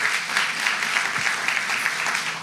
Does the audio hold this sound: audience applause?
yes

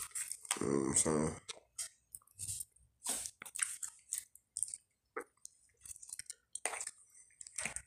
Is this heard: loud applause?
no

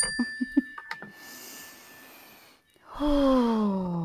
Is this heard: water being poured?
no

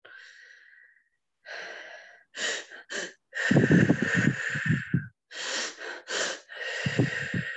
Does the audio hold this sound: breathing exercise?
yes

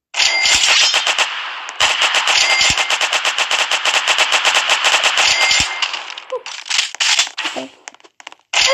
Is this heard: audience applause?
no

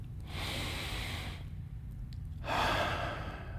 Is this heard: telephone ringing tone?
no

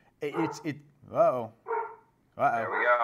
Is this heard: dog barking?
yes

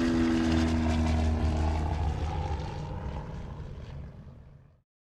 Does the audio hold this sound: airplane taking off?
yes

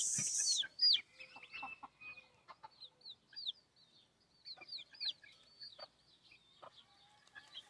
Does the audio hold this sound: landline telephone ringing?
no

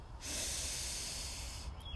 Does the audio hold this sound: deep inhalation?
yes

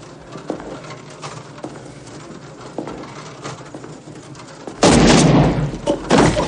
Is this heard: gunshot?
yes

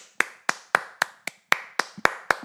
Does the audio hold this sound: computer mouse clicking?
no

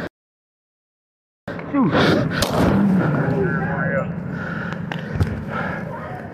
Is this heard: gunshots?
yes

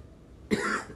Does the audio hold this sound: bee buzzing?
no

